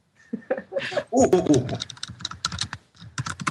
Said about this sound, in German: Ah, das Getippe stört mich echt. Kannst du nicht irgendwie das Papier schreiben?